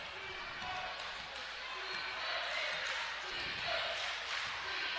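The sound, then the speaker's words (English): Basketball being dribbled just inside the half-court line during a game: repeated steady bounces against a dense, continuous crowd noise. “Dribbling just inside the half-court line. Not really running any play right now. He's just dribbling just inside the half-court line.”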